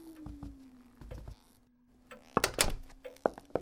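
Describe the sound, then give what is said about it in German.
The door of a gloomy inn is opened to enter, heard quietly as a steady low drone followed by a few clunks and knocks near the end. “Gehen wir hinein. Ja, die Tür scheint jedenfalls offen zu sein.”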